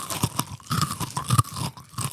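Crunchy snack eaten from a bag, heard as a close series of crisp, irregular crunches and chewing bites, fairly soft, with no talking.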